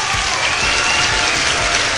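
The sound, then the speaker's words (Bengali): Applause given as a reward for a listener: a full, even roar of many hands clapping, loud and sustained without pause across the whole stretch. “তার জন্য তোমার একটা হাততালি পুরস্কার, হাততালি তো তোমার জন্য থাকছেই”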